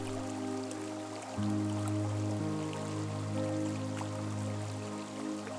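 A babbling brook flows steadily beside a tree, a soft continuous watery wash with no distinct splashes, layered over a sustained low tonal drone.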